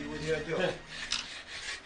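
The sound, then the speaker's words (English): Hand sanding, with abrasive rubbing swept to and fro in a few continuous rasping strokes at a soft, even level. “Tea break's over.”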